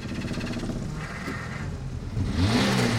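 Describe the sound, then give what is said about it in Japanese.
A car engine running with a low, uneven rumble, then revving near the end as its pitch and loudness climb, heard alone without talk. “ちょっとエンジンかけてみましょう か。かけていただきたいですね。 音もすごいんですよ、はい、近所迷惑にならない程度の心地よい音ですからね”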